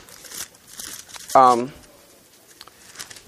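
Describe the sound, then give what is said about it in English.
Thin pages of a Bible rustling and crinkling as they are turned with dry fingers, giving soft, scattered paper rustles and a brief voiced sound in the middle. “Boy, I'm having a hard time turning pages this week.”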